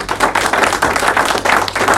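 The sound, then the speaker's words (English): A group claps in rhythm at a meeting. The claps are short and sharp, with many of them in an even pulse, loud and with no talk. “Clap for Emily. Clap”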